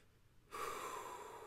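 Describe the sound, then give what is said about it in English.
A group takes a deep inhale together during a short guided meditation at a mental health round table. After quiet, the breath starts abruptly as a steady, airy rush that holds to the end. “So let's just like take a breath here together”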